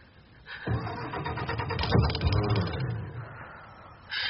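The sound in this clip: Car engine cranking as it is hot-wired, a continuous mechanical churning that kicks in after half a second, builds with rapid pulsing through the middle, eases off, then surges again near the end.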